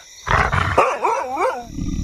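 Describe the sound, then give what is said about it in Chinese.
A husky dog gives a gruff, roaring bark, then a wavering, howl-like cry that rises and falls, loud and alone without talk. “这是哈士奇吧？ 真是受够了，居然拿哈士奇冒充狼。”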